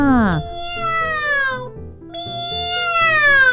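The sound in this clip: A voice imitates a cat meowing during a nasal singing exercise. It sustains two long, bright meow-like notes, the first opening with a quick swoop, while lower stepped tones sound beneath.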